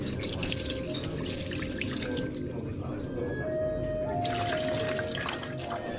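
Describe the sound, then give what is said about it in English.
Water poured from a pitcher into a bowl for ritual hand washing before a meal at a Jewish-style restaurant table: a continuous, fairly quiet trickle and splash with faint ringing tones. “Next, she brings a pitcher and a bowl to the table. It's a Jewish traditional before eating washing hands.”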